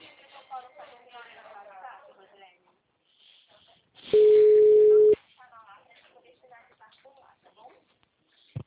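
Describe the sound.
A single steady telephone tone signals a dropped call, lasting about a second and sitting between stretches of quiet conversational speech before and after.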